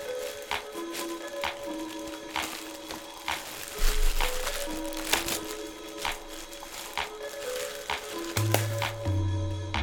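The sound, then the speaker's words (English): Paper rustling and crinkling as a birthday card is opened, a steady crackly rustle with a few sharper crackles scattered through it. “Let's open the card.”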